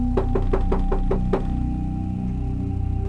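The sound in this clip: Seven quick, evenly spaced knocks on the door of a room at the end of a passage, followed by a low steady hum once the knocking stops.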